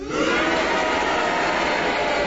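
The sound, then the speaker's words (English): A studio audience gives its verdict on a challenge with a sustained, massed crowd roar that stays steady and unbroken from start to finish. “if you agree with the challenge of hesitation, you cheer. If you disagree, you boo, and you do it all together now.”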